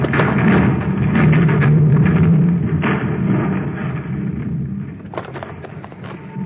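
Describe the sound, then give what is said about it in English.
A landslide of dirt crashes down near a dam, a loud, sustained rumbling roar with scattered thuds that gradually fades toward the end. “A landslide. Press close to the dam. Keep your head down.”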